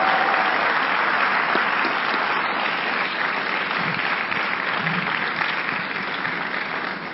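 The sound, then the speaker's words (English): Applause from a church audience honoring a bishop: a dense, steady wash of many hands clapping that holds for about seven seconds and eases slightly toward the end. “Oh, you can clap. You can clap.”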